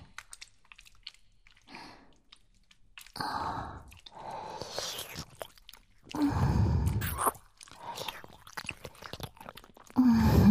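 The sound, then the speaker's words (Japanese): Wet squishing and dripping as ears are washed in ASMR style, with irregular bursts of squelching, some louder and longer, and soft breathy sighs between them. “気持ちよくなっちゃダメだよ。洗ってるだけなんだから。こっちの耳もきれいきれいしようね。”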